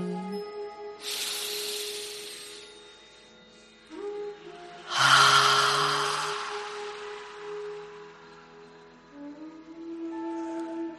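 Slow breathing during a guided relaxation exercise: two long, airy hissing breaths, each lasting over a second and well apart, over soft sustained tones of background music.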